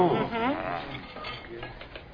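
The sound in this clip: Soup being stirred in a pot, with a utensil scraping and lightly clinking against the sides in a continuous, fairly even rhythm, and a voice briefly heard at the start.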